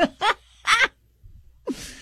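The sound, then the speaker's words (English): A person imitates an owl call with their voice: three short, breathy hoots, then a longer airy exhale. “I can do an owl.”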